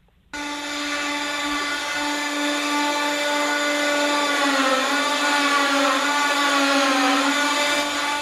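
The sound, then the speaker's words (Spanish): Saw cutting olive wood for handmade nativity figures, starting abruptly and then running on as a steady, loud buzzing whine with no breaks between strokes. “Te voy a poner el sonido de serrucho y nos cuentas a qué huele el serrín de olivo.”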